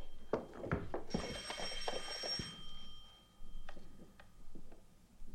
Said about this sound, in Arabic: الو من رنة التليفون عرفتك